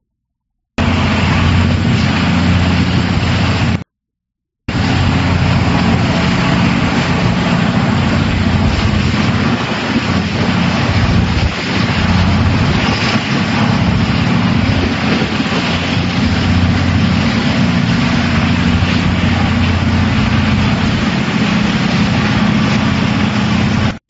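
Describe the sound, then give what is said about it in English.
A data center's generator in Florida runs in the morning with a loud, steady, low engine rumble and drone. The sound cuts out briefly near the start, then continues unbroken with no voices. “Here's the data center's generator starting up in the morning in Florida. Listen to this beast.”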